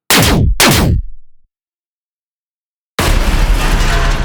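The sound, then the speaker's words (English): Two sharp turret shots fire from a spaceship in quick succession, each sweeping downward in pitch. A brief silence follows, then a loud, sustained, noisy roar as light fighters go down. “A few more shots fire from the turrets, and a few more of the target light fighters go down.”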